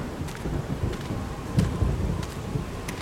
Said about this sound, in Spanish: un trueno hizo retumbar el valle entre montañas en el que ahora nos encontrábamos, y segundos después una tupida lluvia descargó sobre nosotros.